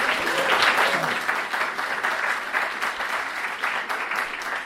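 Audience applause welcoming a visual effects supervisor onto the stage in a small intimate room: dense, steady clapping from many hands that peaks early and then holds at a slightly lower, even level.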